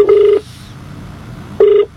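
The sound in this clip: An outgoing phone call to a radio listener rings out with a buzzing ringback tone. One ring lasts under half a second, and after a silent gap a second, shorter ring follows.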